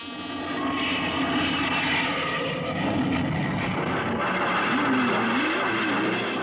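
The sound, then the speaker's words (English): Airplane taking off for a high-altitude test flight, a loud, dense engine roar with a wavering tonal whine running through it, holding steady without a pause from start to end. “Clear for takeoff, Charlie? Right. Okay, give him the light.”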